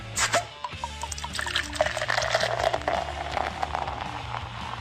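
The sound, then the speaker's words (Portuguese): A Collective Arts Brewing beer is opened and poured, with a steady trickling pour and light fizzy crackle running continuously at moderate loudness. “Então, abrindo ela aqui, vamos tomar um gole.”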